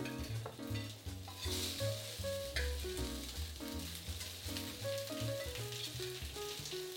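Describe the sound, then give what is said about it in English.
Tuna burger patties fry in coconut oil in a pan over medium heat, giving a steady, fairly faint crackling sizzle dotted with many small pops and no talk. “So I'm using coconut oil. And I'm gonna start placing my tuna on the pan.”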